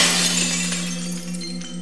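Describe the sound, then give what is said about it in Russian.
Glass shards tinkle and clink on the ground after a glass figure shatters, a bright, busy jingling that slowly fades over about two seconds above a low steady hum. “Зловеще зазвенели, зазвякали осколки. Они запрыгали по земле и стали склеиваться, превращаться обратно в стеклянного человека.”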